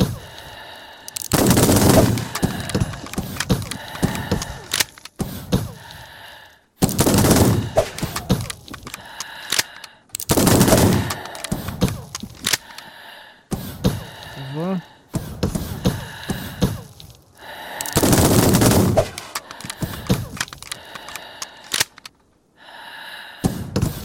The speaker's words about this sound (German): Alle 6 Kugeln verballern, ey. Munition ist billig hier heutzutage.